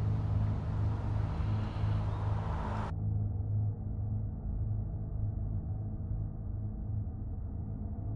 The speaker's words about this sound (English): Hey, you remember when Dad used to take us out on drives like this?